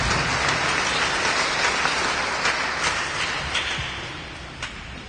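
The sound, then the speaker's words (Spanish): Sustained applause from an audience, a dense, steady wash of clapping at high level that eases slightly toward the end. “haga unos fuertes aplausos, que vaya con man Dios.”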